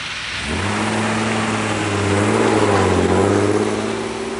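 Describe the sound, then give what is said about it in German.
An old box van engine starts up after a brief moment and rattles away in a loud, steady, low rumble whose pitch swells briefly midway. “schwingt sich in den bekannten alten Kastenwagen, lässt den Motor an und rattert davon.”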